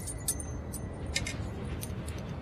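A bunch of keys jangling, a few faint, bright metallic clinks scattered over a steady low background.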